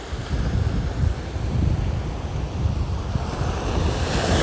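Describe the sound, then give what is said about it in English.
Waves wash onto a beach in a continuous, dense roar, with wind buffeting the microphone and adding a deep rumble throughout. “But I am sitting on this beach”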